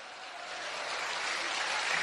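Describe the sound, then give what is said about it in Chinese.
Audience applause, a soft, even wash of many hands clapping that swells slightly toward the end, heard alone without talk. “你们鼓掌的意思就是他这坑入的对呗？”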